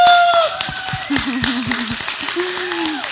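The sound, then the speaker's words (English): A church audience applauds guest speakers, a steady wash of clapping running throughout while voices carry on over it. “you stand and applaud, because we applaud the glory of God in them and on their life, right? Okay, and so let's do that. Let's stand and let's honor”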